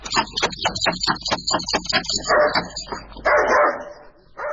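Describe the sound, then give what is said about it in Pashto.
A dog barks at a house door while someone knocks: a rapid series of loud, sharp barks, followed by people talking. “تاسو بد سپی لرې”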